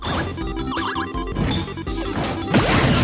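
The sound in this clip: A video game final smash attack in which the character breathes fire, heard as dense, loud crashing and whooshing game effects over layered tonal game music, sustained throughout with no pauses.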